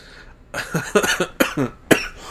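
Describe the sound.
A person with a cold coughs in a rough, chesty fit of several short bursts in quick succession, each harsh and breathy.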